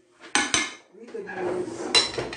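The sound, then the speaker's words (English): Metal cooking utensils clatter as someone rummages through them for a big cooking spoon while making black cake and rum punch. Two sharp clanks come first, then a stretch of steady jostling and scraping, then another loud clank. “Where are you, big spoon? Big cook spoon.”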